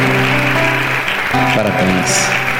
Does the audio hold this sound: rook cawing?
no